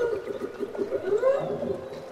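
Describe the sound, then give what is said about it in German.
Whale song recorded off the Alaska coast: long, wavering mid-pitched tonal calls that glide up and down, sounding continuously at moderate loudness with no talk. “An der Küste Alaskas nahm er den Gesang der Wale auf.”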